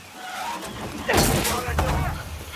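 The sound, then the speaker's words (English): A heavy cabinet topples against a door in a film action scene: one loud, broad crash lands about midway and rings out over a steady background rumble. “He topples a heavy cabinet against the door.”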